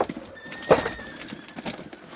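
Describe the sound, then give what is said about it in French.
Tack jangles and hooves shuffle as a horse is saddled on a snowy afternoon: a few soft clinks and light thuds over a low, steady background. “ce qui te fait sceller un cheval au milieu d'après-midi alors qu'il neige à flocons”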